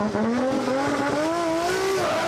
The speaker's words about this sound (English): As he comes off the line in the unmissable yellow S14A.